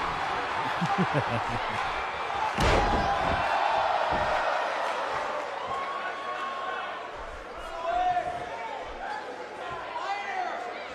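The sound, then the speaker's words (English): A belly-to-back suplex in a wrestling video game lands as one sharp, heavy slam over crowd noise, with a person talking throughout. “Jordan now picks him up. And a belly-to-back suplex on Luke Gallows.”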